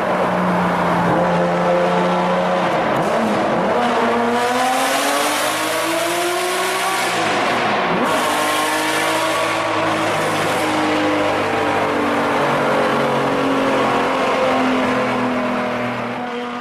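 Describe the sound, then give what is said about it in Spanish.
A Ferrari F50 sports car engine revs loudly with a strong harmonic howl. Its pitch dips and climbs through a few revs before settling into a sustained high drone. “así es como suena tu F50. Así es como suena el F50.”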